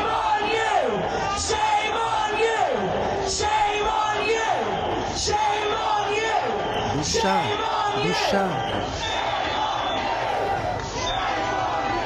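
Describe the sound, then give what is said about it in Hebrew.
Protesters shout and chant outside the BBC building: loud, continuous massed voices with repeated rising yells throughout. “עכשיו בואו נראה את הוידאו השני, שהם עומדים שם ליד הבניין של ה-BBC, ותקשיבו, אם אפשר עם סאונד, מה הם צועקים.”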